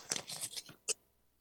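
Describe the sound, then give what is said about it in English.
Paper tearing as a sealed envelope that came by registered mail is ripped open: a quick run of crisp, rasping rips followed by one separate sharp tear, faint and with no voices. “But however, I do have a sealed envelope. It arrived today by registered mail from the management of Saga 960. So I'm going to open this.”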